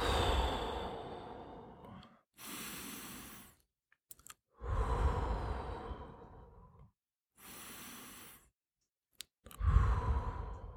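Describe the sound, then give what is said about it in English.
Deep, deliberate breathing taken to calm and focus: a few long, breathy inhales and exhales separated by short silences, quiet and with no talk. “when I'm doing that, I'm taking three deep breaths”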